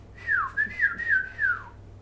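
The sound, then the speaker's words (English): A person whistles to imitate a whistle heard in the middle of the night: a few high, sliding notes in a short phrase, alone and fairly faint, with the last note falling. “they hear, like, a whistling, but not like a whistling through the trees, like an actual”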